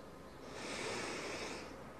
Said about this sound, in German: Ausatmen.